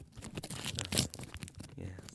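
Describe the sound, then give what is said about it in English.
A pack of trading cards is torn open with a crinkly, crunching rip that runs for about two seconds in several rough bursts, loudest near the middle. “The trading cards. Ooh, that's a good rip.”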